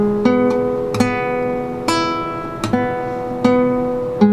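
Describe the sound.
Guitar notes ring out from the fourth string fretted at the fourth fret, the same low-mid pitch plucked several times at uneven intervals, each attack bright and clear and then sustaining and fading until the next pluck.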